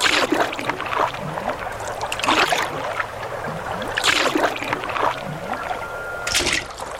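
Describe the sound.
Canoe paddling across a river, a few rhythmic splashing strokes over a steady wash of moving water.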